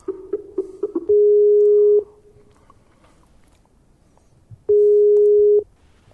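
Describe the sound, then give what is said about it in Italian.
Skype call connecting tone: a few quick short blips, then two long, steady mid-pitched tones of about a second each, separated by a pause of near silence. “Ci colleghiamo con loro via Skype.”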